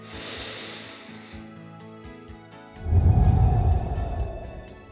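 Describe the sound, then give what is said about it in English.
A deep breath taken for a breath prayer, a soft, breathy rush of air lasting over a second, following a stretch of faint, steady background tones. “let's take a moment to pray together using a breath prayer. It's a simple yet powerful way to connect with God. Let's have a breath and have a prayer.”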